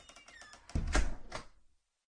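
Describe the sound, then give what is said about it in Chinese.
Bedroom door clicking shut: a few light rattling clicks, then a dull, heavy thud and a short knock that fades into silence. “卧室的门啪嗒一声关上了。”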